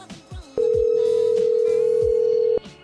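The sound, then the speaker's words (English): A telephone call ringing through to voicemail: a single loud, steady electronic beep holding one pitch for about two seconds over faint background sound, with no talk. “I've reached the voicemail box.”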